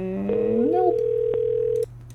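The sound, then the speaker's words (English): A steady telephone dial tone, heard while dialing an extension, holds at one pitch for about a second and a half, then cuts off abruptly. “I don't know what extension I'm supposed to be dialing.”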